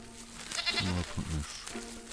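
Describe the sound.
A goat bleating: one short, wavering, nasal bleat with a quavering middle, over a low steady background.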